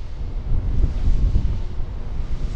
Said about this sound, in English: It is windy! Well, the wind's coming around the turbine now.